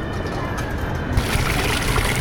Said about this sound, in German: Wasser für die Pferde haben wir dabei. Die Ponys haben Durst. Mal sehen, ob die anderen auch noch was wollen. Ich mach den Eimer erstmal halt voll.